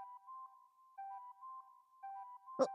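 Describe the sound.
A flood of incoming message notification chimes on a phone. A short melodic chime repeats three times in quick succession, each one faint and electronic.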